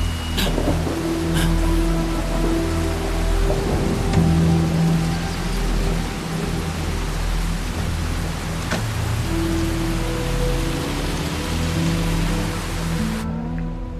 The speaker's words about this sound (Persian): همونطور که میبینید امروز روز بارونی رو در پیش داریم.